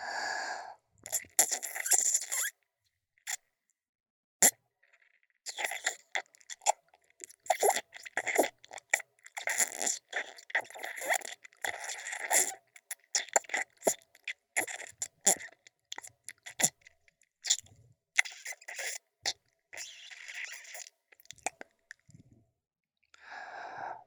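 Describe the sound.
Someone eating food with loud, crunching chewing that comes in many short bursts, with brief silent gaps between.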